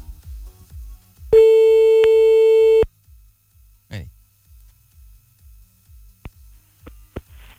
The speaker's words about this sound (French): Bah, il a complètement raccroché. On va donc le rappeler.